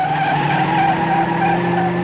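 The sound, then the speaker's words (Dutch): Car wheels spin and slip in mud on a muddy cobbled road. The engine whines loudly and steadily at high revs with a sustained tonal squeal, continuous throughout with no voices. “Als we eerst maar uit die prut zijn, mijn wielen slippen gewoon weg.”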